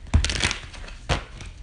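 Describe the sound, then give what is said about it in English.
A tarot card being pulled and shuffled makes a few crisp, papery snaps and rustling crackles, a burst near the start and another about a second later, with quieter shuffling between. “I've been guided to pull a card for the today.”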